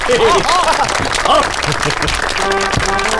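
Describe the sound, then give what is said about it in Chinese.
A group breaks into applause to welcome a newly appointed special guard platoon leader, with loud, steady clapping and voices calling out over it. “掌声欢迎！”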